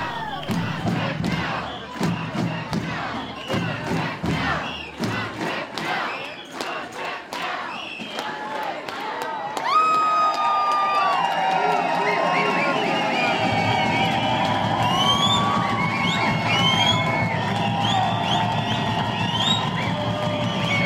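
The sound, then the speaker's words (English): Over 1,000 teachers and supporters marching on a school board meeting to demand a contract: rhythmic percussive beats and crowd noise, then a surge of loud, sustained cheering and shouting with shrill whistles gliding above it. “That's the sound of over 1,000 teachers and the supporters marching on the school board Monday night, where they demanded a contract after almost 500 days without one.”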